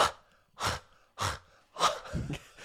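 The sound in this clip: Warm breath blown out in a few soft, airy exhalations, each a breathy rush separated by short pauses, with the last one longer and trailing off. No one speaks.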